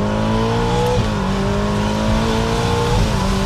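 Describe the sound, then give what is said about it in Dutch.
Ferrari Amalfi Spider engine revving hard at full throttle after a downshift to second gear, a loud continuous roar with steadily climbing pitch and brief dips at gear changes, with no voices. “En dan schakel je bijvoorbeeld terug naar z'n 2 bij 70 en een vol op het gas.”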